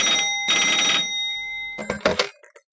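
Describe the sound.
An old-style telephone bell rings for an unidentified incoming call in a couple of loud, bright bursts. A short clattering of clicks follows before it falls silent.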